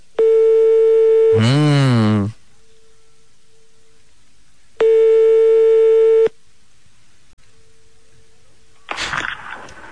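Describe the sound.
Telephone line tone while calling a small one-star hotel in Paris: two steady, mid-pitched ringing tones about one and a half seconds each, with a long pause between them and a brief warbling sound right after the first tone.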